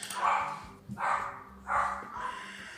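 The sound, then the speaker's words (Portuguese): A dog barks in a few short, rough bursts, evenly spaced and moderately loud, with no talking over them. “Vai com latido mesmo.”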